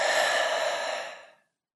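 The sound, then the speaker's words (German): A slow, airy exhale through a slightly open mouth, soft and steady, then fading to silence after about a second and a half. “atme durch den leicht geöffneten Mund alles wieder aus”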